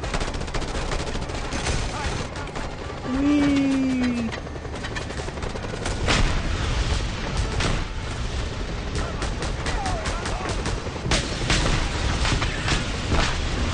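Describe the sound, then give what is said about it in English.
Gunfire and explosions burst in the video game Just Cause 2 during a helicopter chase, a loud, continuous barrage of rapid shots and booming blasts that keeps going throughout. “And it was just all of a sudden exploded. Welcome to Just Cause 2.”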